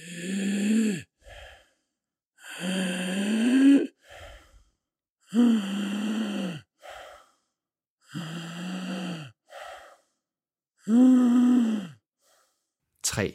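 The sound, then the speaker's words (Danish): Inspiratory stridor, noisy breathing through a narrowed upper airway: five long, harsh breaths with a low crowing tone alternate with shorter, quieter breaths in a slow, labored rhythm. “Lyden opstår på grund af luftturbulens ved indånding, som følge af det forsnævrede lumen i de øvre luftveje. Inspiratorisk strider kan lyde sådan her.”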